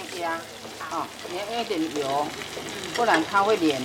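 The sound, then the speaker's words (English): Taiwanese hamburger patties frying in cooking oil in a pan give off a steady crackling sizzle. Voices talk over the frying throughout. “Make sure you put enough cooking oil, otherwise the meat will stick it to the pan.”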